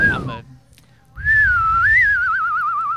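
Loud human whistling: a brief note, a short pause, then a long sustained tone that wavers in pitch and breaks into a quick trilling warble toward the end.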